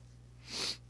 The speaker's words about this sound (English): Yeah, nothing like a good sniff right into the microphone. It's so gross.